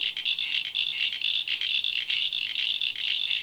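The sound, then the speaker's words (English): Eastern common froglets call in a steady chorus of high, rapid chirping pulses. Many calls overlap and run continuously through the whole clip, with no voices. “Now, these are all local frogs, so you might recognise them. They're probably in your dam or in your backyard. So, can we hear what this one sounds like?”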